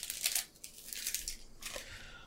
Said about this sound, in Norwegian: Vent litt, her, jeg må bare bla litt.